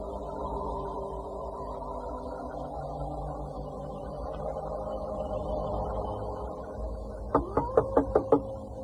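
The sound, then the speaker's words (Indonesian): Knocking on a home's door: a quick burst of sharp raps near the end, after a long stretch of low, steady hum. “Dia mengetuk pintu kita lagi”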